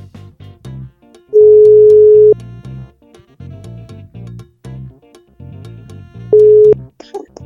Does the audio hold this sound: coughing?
no